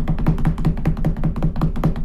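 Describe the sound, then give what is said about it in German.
Quick, even knocking on a surface: many low, dull taps in a steady fast rhythm, each one the same in loudness and spacing, with no voices over them. “dann musst du klopfen”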